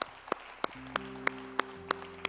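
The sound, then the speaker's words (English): A church audience claps hands together in a steady, evenly spaced beat, each sharp clap standing out over sustained musical tones. “Come on, clap your hands right now.”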